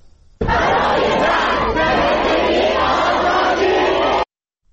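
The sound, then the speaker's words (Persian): Students chant slogans together at a university protest rally in Qom, a loud, dense crowd of voices in steady unison that holds at full strength for several seconds before cutting off abruptly. “قم هم تجمع دانشجویان رو داریم که تجمع کردن، تجمعشون همچنان ادامه داره و اونها هم صدای شعارشون رو داریم اینجا.”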